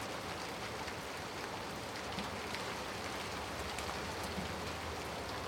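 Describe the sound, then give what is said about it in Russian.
Steady rain falls onto a courtyard's wet stones with a soft, even, rustling hiss. It continues unchanged throughout, with faint scattered drop ticks and no voices. “сыплется дождь. Гляжу на мокрые камни двора.”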